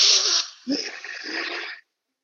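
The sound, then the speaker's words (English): A group takes a big inhale through the nose during guided breathing: airy, rushing breath noise that swells and holds for over a second after a brief hiss, then stops. “We're going to do a big inhale together into the nose.”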